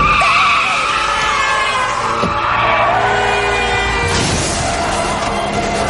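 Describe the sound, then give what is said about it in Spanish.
Tires squeal loudly as cars swerve to avoid a head-on collision and skid sideways out of control, a sustained high screech that flares again near the end. “Ambos dan un volantazo para no chocar. Entonces pierden el control y se van de lado.”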